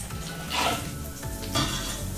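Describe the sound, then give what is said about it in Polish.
Butter sizzles in a hot frying pan with a steady, bright crackle that swells twice, briefly and more loudly, as the cooking goes on. “Rozgrzewamy patelnię. I wrzucamy na nią sporą łyżkę masła. Kiedy masło się rozpuści, wrzucamy cebulkę”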